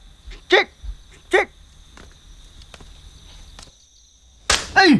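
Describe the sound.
A dog barks a few short, sharp times with quiet gaps between them, then gives a couple more closely spaced barks at the end.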